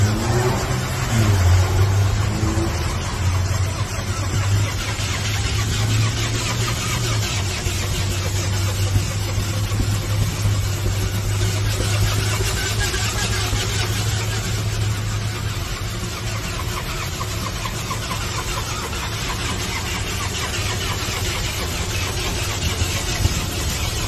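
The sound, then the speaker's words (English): A motorcycle engine revs in a video of a bike called the Ghost Rider bike, a continuous throaty rumble with a low droning tone through the first two-thirds that eases off later. “I actually got a live video of the real Ghost Rider bike.”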